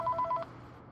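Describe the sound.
Telephone ringing with an incoming call: a short burst of rapid, warbling two-tone electronic beeps that stops abruptly, leaving only a faint low hum.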